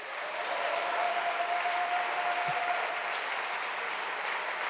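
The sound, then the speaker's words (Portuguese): Applause from an audience during a church service, a steady, even wash of many hands clapping together at a fairly soft level, holding without a break from start to end. “Alguém pode aplaudir a isso?”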